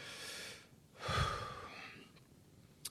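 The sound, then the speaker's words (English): A slow, deep breath taken during a guided relaxation exercise, soft and airy, faint and heard alone without any talking. “So take a deep breath.”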